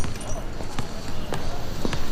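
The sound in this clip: A basketball bouncing on a court, a few sharp thuds spaced unevenly over a steady background of noise.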